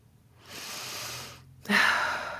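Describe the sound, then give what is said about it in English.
A deep human breath, a soft drawn-out inhale followed after a brief pause by a stronger, louder exhale, heard alone without speech. “that was a deep breathe in, breathe out.”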